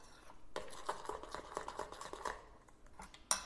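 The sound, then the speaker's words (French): Fritter batter for dipping broccoli florets being stirred until it reaches a pancake-batter consistency, with many soft, quick scraping clicks in a loose rhythm, faint overall, and one sharper clink near the end. “Donc, je mélange ma petite pâte.”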